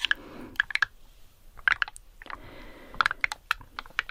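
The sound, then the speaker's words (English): A sheet of stickers being handled makes crisp, sharp taps and clicks. They come in irregular clusters separated by quiet gaps, with no talk. “and that is the sheet of stickers that I used in the 300 triggers video I shot a few weeks ago.”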